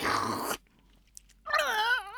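A noisy slurp of homemade soup ladled from the pot, then after a brief silence a wavering, voiced moan of satisfaction.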